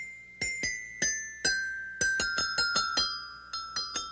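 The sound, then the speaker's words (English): Bright metallic notes ring from a toy metallophone with resonators, struck with a hard mallet. About a dozen clear strikes step mostly downward in pitch, each with a sharp attack and a short ringing decay. “Here's a harder mallet. It gives you a much brighter sound.”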